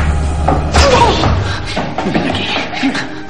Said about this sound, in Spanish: La ambientación luminosa cambia y de pronto se abren las puertas que comunican su estancia con la de Gary.